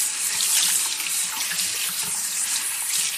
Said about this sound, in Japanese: 旦那様、お湯熱くないですか？